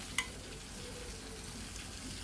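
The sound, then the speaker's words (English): Food is stirred in a pan over a faint, steady sizzle, with one brief sharp clink near the start. “Just a pinch. And then you stir it all up.”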